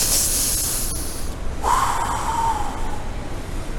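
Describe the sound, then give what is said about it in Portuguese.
A speaker draws in a deep breath: a loud, airy rush of hiss that swells midway and trails off over a few seconds, with no talking. “Eu vou até respirar porque eu estou falando aqui sem parar.”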